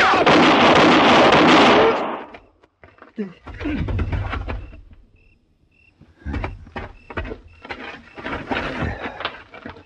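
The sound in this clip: A loud gunshot blast in a 1960 Western radio drama opens with a dense burst that holds and then fades over about two seconds. Voices talk and scattered quieter sounds follow.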